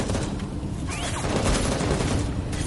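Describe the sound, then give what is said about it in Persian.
Dense gunfire near a factory: a steady, unbroken volley of many overlapping shots, loud and harsh throughout. “چی شده؟ چه خبره؟ تیر اندازی رو مگه نمیشنویم؟”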